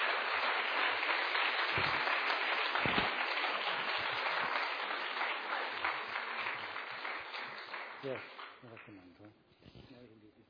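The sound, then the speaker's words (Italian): A church audience applauds with dense, steady clapping held at an even level for several seconds, then thinning and fading as a voice begins speaking near the end. “Forte applauso al Signore.”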